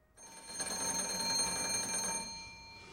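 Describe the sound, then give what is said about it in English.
A telephone bell rings in one continuous, bright metallic trill lasting about two seconds, loud and alone with no voices, then stops and leaves a short fading ring. “Monty puts down his notebook and goes to answer the phone.”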